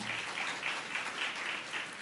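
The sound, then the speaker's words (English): Steady audience applause at a celebration event in Umlazi township, KwaZulu-Natal. Dense, even clapping forms a continuous hiss with slight rhythmic swells. It is fairly faint and has no talk over it. “So give yourself a round of applause that we are now in KwaZulu-Natal.”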